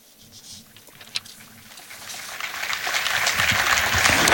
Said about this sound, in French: Et les fidèles qui applaudissent place Saint-Pierre